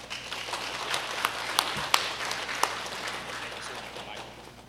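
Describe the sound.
Audience applause welcoming a guest speaker from the Ministry of Gideons, a fairly faint, steady wash of clapping with a few sharper individual claps standing out.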